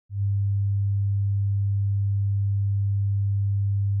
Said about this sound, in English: In a moment, you'll hear a 100 Hz tone in your left ear.